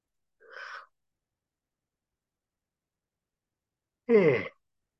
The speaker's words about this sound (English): As always, my yawning is not about being tired. It is about energy already releasing through me.